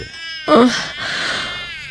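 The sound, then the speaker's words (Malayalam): A baby boy cries with a brief, loud, high wavering wail, then keeps on in softer, drawn-out crying until the end. “മോൻ കരയുന്ന”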